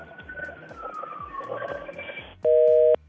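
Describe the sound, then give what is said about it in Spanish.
Busy tone after a phone call cuts off: a single steady, loud electronic beep that starts abruptly and stops after about half a second, following a stretch of softer line noise. “Se le cortó la llamada.”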